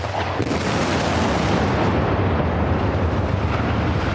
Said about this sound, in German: Vor knapp 2 Jahren wurde die Ramedetalbrücke in Lüdenscheid gesprengt. 3, 2, 1, Zündung!